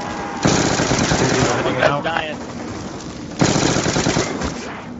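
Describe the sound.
Automatic gunfire in a video game, two long rapid bursts with a short pause between them, while players talk over the shooting.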